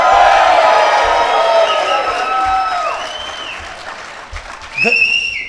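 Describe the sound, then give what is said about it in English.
Loud cheering, whooping and applause from an audience at an addiction-recovery gathering in Houston, Texas, fading over several seconds before a sharp rising shout and a fresh burst of cheers near the end. “if you're excited to be clean, right, at noon in Houston, Texas, make some noise.”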